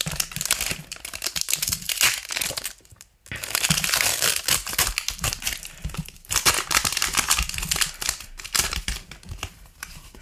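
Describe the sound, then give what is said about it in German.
A Pokémon Sword and Shield trading card booster pack being torn open, its plastic wrapper crinkling and crackling in many sharp, irregular bursts. The noise drops out briefly near three seconds, and no one speaks. “Ja, und dann mache ich mal dieses Schwert und Schild auf.”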